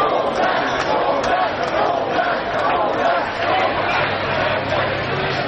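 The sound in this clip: A roadside crowd cheers and shouts while waiting for the cyclist Vingegaard to pass. The dense, unbroken wall of voices and babble stays loud throughout, with no pauses.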